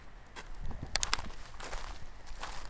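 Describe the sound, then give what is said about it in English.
Footsteps walk over dry, snow-free ground at altitude, a faint series of light, crunchy steps with no talking. “So I'm walking over.”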